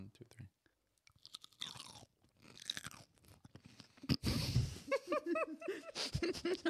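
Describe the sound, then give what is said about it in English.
Close, crisp bites and crunches into a fresh cucumber come in a quick burst after quieter rustling and murmurs. Voices and laughter follow right after the crunching. “Grab a cucumber, and then we're going to do a little ASMR for the ones that are listening.”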